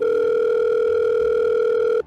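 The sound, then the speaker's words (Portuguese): A continuous telephone dial tone plays as a call is placed to a television weather journalist: one steady, unbroken electronic tone holding at the same pitch for about two seconds before it cuts off. “ligar para Anne Lotterman, jornalista que apresenta a previsão do tempo no Jornal Nacional.”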